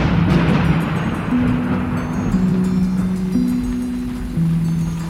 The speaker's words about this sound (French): Alors là, nous avons la petite rincée. Et on, voilà. En fait, on a très peu de gouttes, nous. Oui, on est sous les arbres, là.